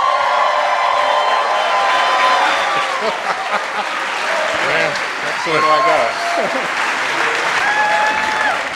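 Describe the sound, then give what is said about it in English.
Sustained, dense applause from a studio audience welcoming a guest on a science talk show, loud and steady throughout, with voices mixed into the clapping. “Give me a warm welcome for Dr. David Grinspoon. David!”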